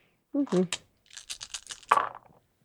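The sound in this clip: Dice rolled for a tabletop role-playing check of wits and occult: a short voice comes first, then a quick run of light clicking rattles lasting about a second.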